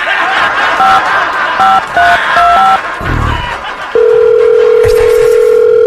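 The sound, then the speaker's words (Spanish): A telephone number being dialed again on a call: a quick run of several short touch-tone beeps at shifting pitches, then a steady ringing tone that holds to the end, with a low background bed beneath. “Órale, pues vamos a volver a marcarle. Ahí te va.”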